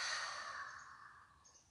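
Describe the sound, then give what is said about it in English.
One long, breathy sigh is heard during a guided breathing exercise. The deep exhale is soft and airy, and it fades gradually until it is faint. “Deep inhale into the body. Exhale, let it go.”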